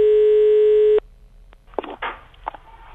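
A telephone tone sounds as an outgoing call is placed, one steady buzzing note held for about a second before cutting off abruptly.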